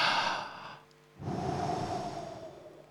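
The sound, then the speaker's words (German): Soft, even breathing during a guided breathing exercise: one breath trails off and a short quiet gap follows. Then comes a long, steady, airy inhalation. “Ich möchte dich einladen, dass du erstmal ganz gleichmäßig einatmest.”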